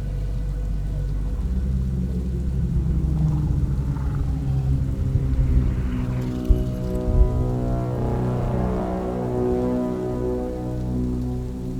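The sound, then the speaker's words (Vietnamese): Heavy torrential rain pours outside as a dense, steady hiss with a low rumbling undertone that stays loud and unbroken throughout, with no voices. “Bên ngoài mưa rơi như thác đổ, vì vậy ngoài tiếng mưa ra, căn bản không còn nghe thấy gì.”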